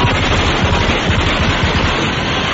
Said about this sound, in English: There is a machine gun trained on the producer's head.